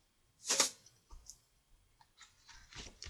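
Knocking on a door: a few sharp, dry raps at uneven intervals, the first the loudest, the rest softer taps.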